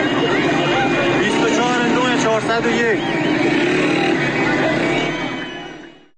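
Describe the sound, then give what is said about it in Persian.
A celebrating crowd fills the entrance of Abdanan with cars, welcoming a released woman home. Dense, loud cheering and crowd din blend with vehicle engine noise throughout, then fade at the end. “بشنویم صدای شادی مردم رو با این ویدیو. ورودی شهر آبداران”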